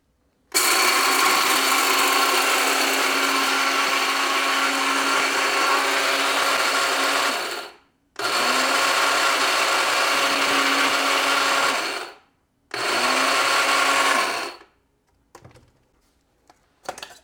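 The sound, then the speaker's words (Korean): Cheap electric grinder grinding coffee beans: three bursts of steady, high-pitched whirring, the first about seven seconds long and the later ones shorter, each stopping abruptly, followed by a few faint rattles. “네, 갈고 왔습니다. 근데 사실 이 지금 제 그라인딩 머신은 쿠팡에서 산 한 2-3만 원짜리 그라인딩 머신이거든요.”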